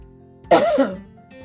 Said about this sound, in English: Let me get the devil off my throat.